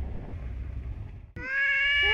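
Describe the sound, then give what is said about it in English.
A cat on an island off Japan lets out one long, loud, steady meow, rich in overtones, that begins abruptly after a stretch of low rushing noise and holds to the end. “There were more cats than we could count on an island off Japan.”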